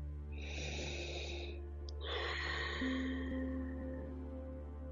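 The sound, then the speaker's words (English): A slow, deep breath: one soft, airy inhale, then a longer, breathy exhale, both quiet over a steady low tonal drone. “So take a deep breath.”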